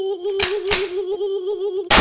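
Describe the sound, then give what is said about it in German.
Gunshots from the Moorhuhn video game, in which the player shoots moorhens, played on an office computer: a few sharp, loud blasts over a steady humming tone, with the last burst longer and louder at the end. “Ich muss noch ein paar Moorhühner schießen.”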